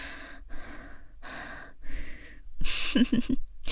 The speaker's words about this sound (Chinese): 来，跟着我一起深呼吸呀。